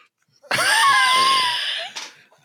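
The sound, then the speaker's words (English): A person lets out a high, strained vocal wheeze. It is one sustained breathy squeal of about a second and a half with a wavering pitch, followed by a short breathy catch. “There's your organic wheeze.”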